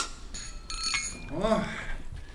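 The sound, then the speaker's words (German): Light clinks of dishes, wine glasses and cutlery as a table is set for a meal, a few sharp chimes over low background noise, with a voice briefly heard. “Decken Sie hier inzwischen weiter ein, bitte. Wo sind die Weingläser?”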